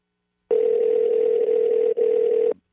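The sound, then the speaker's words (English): A telephone dial tone sounds while a call to a pizza restaurant is being placed. It is a steady, single-pitched hum of about two seconds with one brief break near the end, heard alone. “I'm calling Pizza Hut.”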